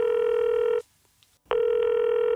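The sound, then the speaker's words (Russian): Ringing tone of an unanswered phone call to mum: a steady, buzzy electronic tone, then a short silence, then the same tone again, two rings in all. “Маме снова звоню, а в ответ лишь:”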